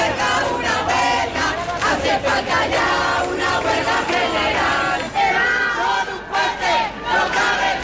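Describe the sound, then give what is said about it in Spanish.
Crowd chanting from a mass housing protest of thousands of people in the capital: a loud, continuous roar of many voices with no breaks throughout. “Sonidos de una protesta que convocó a miles de personas en la capital, 8.000 según la policía, 50.000 según los convocantes.”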